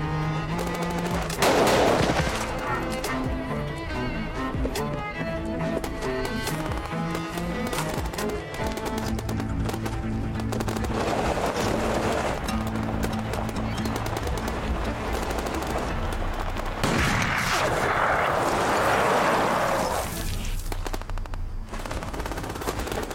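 Machine-gun fire during an armed confrontation with a car's driver, dense and sustained, with heavier bursts near the start and again toward the end.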